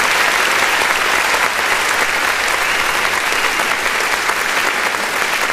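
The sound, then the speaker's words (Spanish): Loud, dense applause from an audience at a gathering, honoring a Sunday radio announcer, holding steady and unbroken from start to finish with no voices standing out. “Un aplauso muy fuerte para nuestro locutor de los domingos.”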